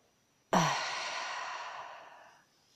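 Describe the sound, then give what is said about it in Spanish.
A deep exhale pushed out through the throat with a groan: a short, low voiced sound opens one long breathy outflow that trails off gradually over about two seconds. “Inhala y exhala haciendo un fuerte ruido por tu garganta, un gemido, no importa el sonido que salga.”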